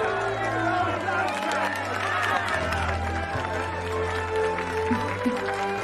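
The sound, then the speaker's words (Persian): Applause from an audience honouring Zac Brockman of Munich and his Christmas cake: dense, steady clapping and crowd noise that continues without a break throughout. “همه لطفاً به افتخار زک براکمن از مونیخ آلمان و کیک کریسمسیش دست بزنید.”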